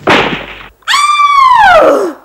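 A gunshot sound effect in a radio play: a loud, harsh burst of noise that cuts off abruptly. A sustained high tone follows and slides steadily downward in pitch.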